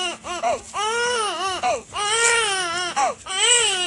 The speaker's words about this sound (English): And he's crying because he's hungry.